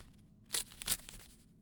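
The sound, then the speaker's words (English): A paper envelope being torn open, with two short, crisp ripping bursts close together, faint against a quiet background. “Let us open the envelope.”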